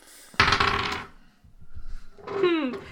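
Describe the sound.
Dice clatter across a table during a tabletop role-playing game, a short busy rattle lasting about half a second. A brief voice follows.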